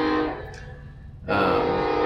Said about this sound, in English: there's a train. Hold on. Okay. So, just to remind you, we don't have a sound room in our church where we do this without. There's actually a soundboard. We just hit a button for train sound.